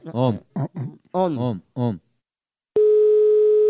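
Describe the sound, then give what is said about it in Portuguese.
A telephone dial tone sounds while a call is being placed. A voice speaks in short phrases first, and after a pause a steady, unbroken tone holds at even loudness until the end. “É o seguinte, eu vou ligar agora pra Joelma.”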